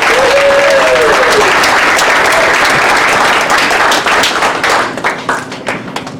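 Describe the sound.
Loud audience applause welcomes a speaker onto the stage at an AGC evening event, a dense roar of clapping that holds steady, then thins toward the end into scattered, separate claps.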